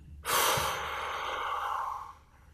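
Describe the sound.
A long, deliberate exhale used to calm nerves: a breathy rush of air that starts sharply, holds steady for about two seconds, then tapers off softly, heard alone without speech.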